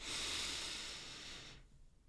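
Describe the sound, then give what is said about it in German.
One long, deep breath drawn in through the nose, a strong airy hiss lasting about a second and a half before it stops abruptly, leaving faint quiet. “Und jetzt schließt du bitte einfach mal die Augen und atmest tief durch die Nase ein, ganz, ganz weit.”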